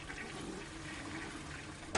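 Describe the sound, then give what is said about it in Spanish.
A toilet is flushed in a bathroom, giving a steady, faint rush of running water throughout, with a brief sharp knock near the end. “En un baño, tira de la cisterna.”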